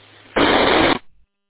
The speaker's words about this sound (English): Interesting courtesy tones.